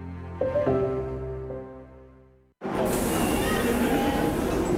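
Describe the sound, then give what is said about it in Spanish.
A Madrid Metro underground train: a sustained ringing tone slowly fades, then after a brief gap a loud, steady rushing roar of the moving train takes over. “Metro de Madrid te lleva de forma segura al trabajo, al gimnasio, al retiro. Un medio de transporte accesible y rápido”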